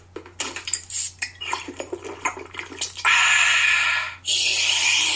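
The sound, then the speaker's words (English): A can of Coca-Cola being opened and poured: many quick metallic clicks and taps of handling, then a loud sustained fizzing hiss of liquid pouring that dips briefly and resumes. “That wasn't sound effects. That was a Coke.”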